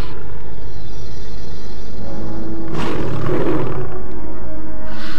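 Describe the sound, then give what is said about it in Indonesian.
A tiger roars as it attacks, a loud, deep, rumbling roar that runs without a break and swells harshly near the middle. “Oh, harimau itu menyerangku. Nyai Gondo dalam bahaya. Harimau itu telah menyerangnya.”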